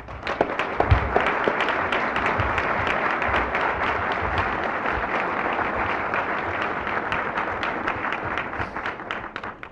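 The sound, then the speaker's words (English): Sustained applause welcomes Secretary Skinner at a press club event: dense, steady clapping from many hands, holding at an even, loud level for the full length with no break. “Please join me in giving Secretary Skinner a warm press club welcome.”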